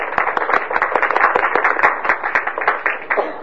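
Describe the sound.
Brisk clapping from a seminar audience welcoming a guest before the session starts, a dense, lively patter of many hands at steady strength through the short stretch.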